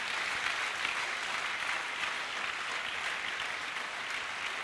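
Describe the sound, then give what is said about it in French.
A church audience applauding during a service: steady, dense clapping that holds at an even level throughout, with no clear voices. “Est-ce qu'on peut acclamer le Seigneur pour la mission?”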